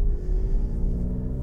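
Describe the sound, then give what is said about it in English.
Low engine rumble of a car crawling in first gear over sand and gravel dusted with light snow, a steady, dark drone with no voices. “Can you hear the sand and the gravel? Oh, they just love the sand and the gravel around here. Slightest little bit of snow. Come on, baby, give me first gear.”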